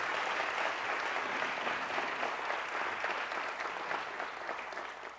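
Audience applause as a thank-you, dense and continuous clapping that holds steady before fading gradually near the end.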